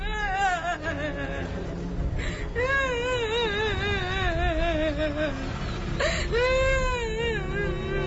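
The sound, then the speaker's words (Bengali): A woman sobs and wails in a few long, wavering cries that rise and fall in pitch, broken by short catches of breath between bursts. “কান্না করলে তো আর সমাধান হবে না।”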